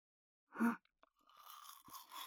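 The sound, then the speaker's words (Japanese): A toothbrush scrubs the back teeth. One short, rough scrape and a couple of faint clicks lead into a quieter, continuous brushing hiss. “口の奥まで、歯ブラシを入れて、まずはこっち側の舌をシャカシャカシャカシャカ”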